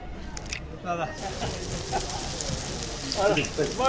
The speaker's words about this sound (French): Vous l'avez jeté dans l'huile, hein ? Le brique, 2,5 dinars seulement.